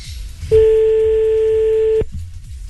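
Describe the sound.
A telephone ringing tone on an outgoing call: one steady, loud, mid-pitched tone lasting about a second and a half, starting and stopping abruptly over faint background noise.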